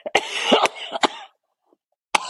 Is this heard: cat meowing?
no

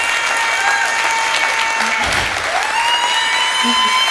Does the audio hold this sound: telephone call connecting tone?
no

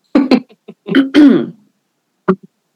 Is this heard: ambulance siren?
no

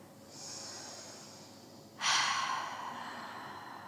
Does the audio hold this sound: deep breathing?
yes

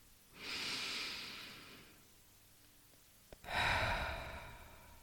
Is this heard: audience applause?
no

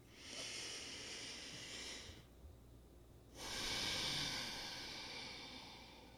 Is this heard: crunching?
no

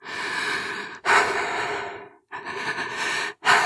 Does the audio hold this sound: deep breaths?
yes

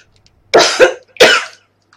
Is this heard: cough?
yes

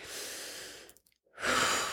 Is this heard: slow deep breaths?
yes

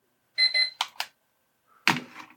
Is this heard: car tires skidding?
no

